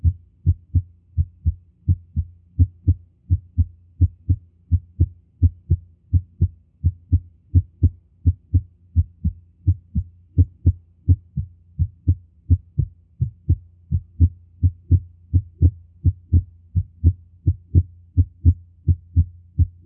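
Heart sounds with the first and second sounds splitting: many steady, regular low thumps in a fast, even rhythm, with no talk over them.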